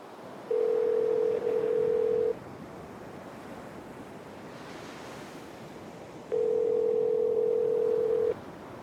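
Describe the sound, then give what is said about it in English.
An outgoing phone call's ringing tone sounds as two long, steady, mid-pitched tones of about two seconds each, separated by a lengthy pause, over a constant soft hiss like wind or surf. “Siri, call Teresa.”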